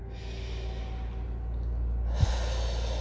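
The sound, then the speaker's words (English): A slow, deep breath in and out at the start of a quiet morning wake-up exercise. The breath is soft and steady, with one brief low knock near the end and no talk. “And I want you to breathe in”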